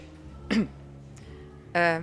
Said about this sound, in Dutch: Ze legt haar tas op de bank voor het bureau, doet haar armen over elkaar en kucht.